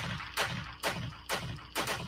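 Gunshot sound effect used as a segment intro: four sharp, evenly spaced bangs about half a second apart, over a steady, noisy background.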